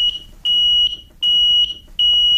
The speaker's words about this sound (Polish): Przypomnijmy, bo warto zaopatrzyć się w czujnik czadu i dymu.